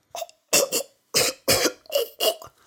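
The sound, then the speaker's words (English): A voice imitates someone choking on food: a run of about six harsh, raspy cough-like bursts with gagging breaths, loud and separated by brief gaps. “You have to be careful when eating certain kinds of food, as they can get caught in your throat and you will start choking. You go,”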